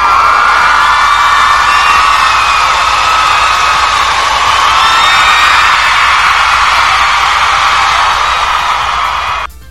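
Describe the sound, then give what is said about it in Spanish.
Crowd ovation with cheering and whoops at a karaoke contest, a loud, sustained wash of shouts and high whoops lasting nearly ten seconds before cutting off abruptly. “Una gran ovación para todos los que mandaron canción.”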